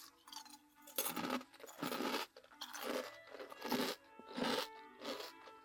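Someone eating a crunchy potato snack, with loud crunchy bites coming in a steady rhythm, each followed by a short pause.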